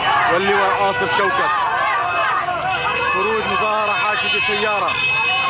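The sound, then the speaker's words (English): Crowd of Syrians celebrating in Idlib: many voices shouting and chanting together in a loud, continuous roar of overlapping voices that never lets up. “Here's the sound of Syrian opposition recorded Syrians in Idlib yesterday celebrating those deaths within Assad's inner circle.”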